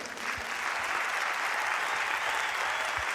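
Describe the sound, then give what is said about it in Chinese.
Audience applause at a singing performance, a dense, even patter of clapping hands from a crowd that holds steady throughout. “看到你的掌声哦！”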